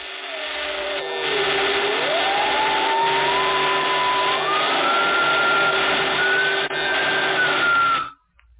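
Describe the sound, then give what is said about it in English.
Crackling, buzzing roar of an infernal machine with two men strapped into it, overlaid by a whining tone that dips and then climbs in steps over about eight seconds before the noise cuts off abruptly. “The next morning, both men were strapped into Horn's infernal machine. There was a great crackling and sparking.”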